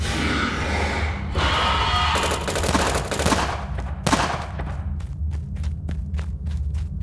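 Rifle fire echoes in a mine tunnel: a dense run of loud, sharp cracks and thuds over a low rumble, ending in a string of evenly spaced single shots.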